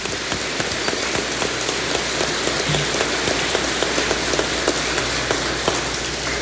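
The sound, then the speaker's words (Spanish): Applause in a church for a priest being installed as parish priest: dense, steady clapping from an audience with many overlapping hand claps, sustained and fairly loud throughout without speech. “Le damos un fuerte aplauso al Padre”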